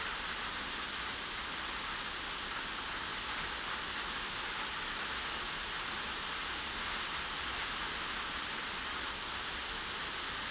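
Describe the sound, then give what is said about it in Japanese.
A sudden summer evening rain shower falls in a steady, dense hiss of drops that stays even and unbroken for about ten seconds, with no voices. “あなたも雨宿りしようと思ってたんだよね。嫌になっちゃうよね、この夕立。”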